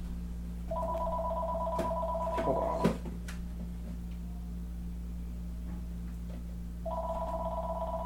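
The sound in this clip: An electronic phone rings from its dock at a shop register, a steady two-tone trill. One long burst cuts off with a sharp click, and a second ring starts after a pause, over a constant low hum.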